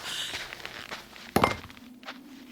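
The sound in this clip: Footsteps of a man walking away across a national park: a few soft steps with one sharper, louder knock midway, heard alone without talking.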